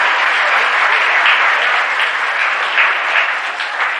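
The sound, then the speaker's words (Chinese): Applause from an audience at a table tennis match: a dense, steady wash of clapping that holds loud and even throughout, with no distinct voices standing out. “这时全场很多观众不得不起立，为我们中国队员取得第一局的胜利而欢呼： 中国庄则栋，庄则栋！”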